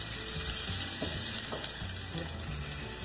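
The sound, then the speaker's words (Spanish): A quarter of a chopped onion fries in a pan with olive oil and garlic, giving a steady, fairly quiet sizzle with a constant crackling hiss and no talking. “Rapidito la cebolla. Es un cuarto de cebolla.”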